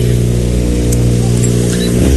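A Renault Clio rally car engine drones loudly at the start line, a steady, low, buzzing hum that shifts briefly in tone near the end.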